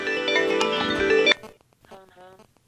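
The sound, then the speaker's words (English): A mobile phone's caller ID voice reads out the caller's name after the info button is pressed. A steady electronic tone plays first, then a brief, faint synthetic spoken word. “Now I'm going to try to move it up towards the microphone and push the info button, and we'll see if you can hear that it's going to say home.”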